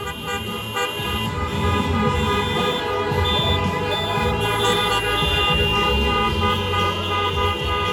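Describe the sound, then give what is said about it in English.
Car horns honk at a loud outdoor event, many overlapping blasts sounding without pause over a steady traffic rumble, with tones stacked and shifting throughout. “It was a lot of horn honking and flashing of lights. And I mean, it sounds quiet right there. That was the stage mic. Yeah. This is what it sounds like where I was standing.”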